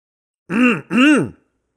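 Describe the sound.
An older woman clears her throat, two loud, rough voiced bursts in quick succession, alone in silence.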